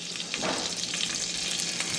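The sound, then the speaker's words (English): Anchovy fillets fry in a splattering skillet in a farm kitchen, a dense, steady sizzle and crackle with no pauses or voices. “A few anchovy fillets. Kids think yuck. Kids think yuck.”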